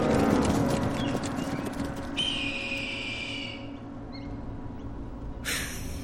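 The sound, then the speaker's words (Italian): Horses gallop in a soldiers' cavalry charge, a dense, continuous rumble of hoofbeats that stays loud for the whole stretch. “Avanti soldati! Al galoppo!”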